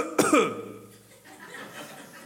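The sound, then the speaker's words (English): A single sharp cough during a church gathering, loud and abrupt, followed by quieter murmuring sounds. “I was like, well, I got a cough. You know, I got a cough on that one.”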